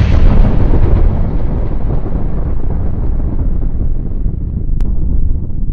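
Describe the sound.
An explosion sound effect of a watermelon blowing up: a loud, deep blast that rolls on as a rough roar and fades slowly, with no voices.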